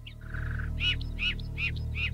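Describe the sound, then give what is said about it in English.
A parakeet calls from a tree branch in a garden at dawn: a short run of bright, repeated chirps, evenly spaced after a brief higher note, over a steady low background hum. “In the bough of a tree sits the parakeet.”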